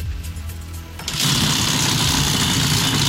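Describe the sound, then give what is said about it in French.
The RMC prize wheel in a call-in game spins: a loud, steady mechanical whirring begins about a second in and continues without a break. “Alors la roue tourne, il faut qu'elle fasse trois tours et je crois que c'est bon.”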